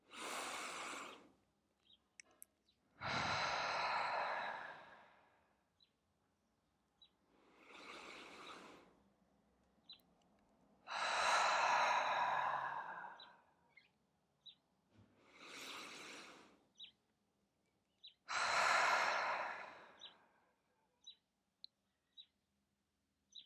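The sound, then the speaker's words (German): Slow, deep breathing during a guided breathing exercise: six long, airy breath sounds separated by quiet pauses, with faint clicks in between. “Atme nun in deinem Rhythmus weiter und konzentriere dich zunächst nur auf deinen Atem.”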